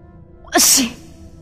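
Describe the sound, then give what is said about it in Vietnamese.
A single sharp sneeze bursts out suddenly, loud and breathy with a quick hissing release, alone in otherwise quiet surroundings. “đột nhiên hắt xì”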